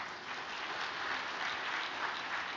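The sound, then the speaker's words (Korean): Applause from the audience at a special overnight religious vigil greets a speaker: soft, continuous clapping that swells slightly and then holds steady, with no voices over it. “따뜻한 박수로 맞이해 주시기 바랍니다.”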